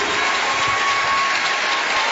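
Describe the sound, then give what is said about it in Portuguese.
Steady, dense applause from a church audience during a worship service, offered in honor of Jesus. The clapping forms an unbroken wash of sound that holds at an even level for the whole clip. “Um aplauso bem forte para Jesus.”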